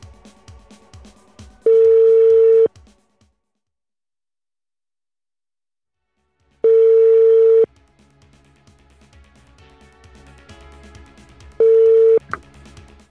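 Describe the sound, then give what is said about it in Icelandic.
A telephone call rings out as three long, steady beeps of equal pitch, each about a second long and spaced roughly five seconds apart, with a faint murmur of background noise between them. “En ég ætla að hringja í Kristin Kernested Hann á að vera hér”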